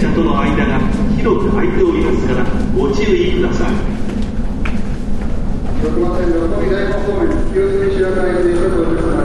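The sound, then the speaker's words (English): A subway train pulls into the station with a loud, continuous rumbling roar and a wavering, whining tone that shifts in pitch throughout. “That's the sound of my subway coming.”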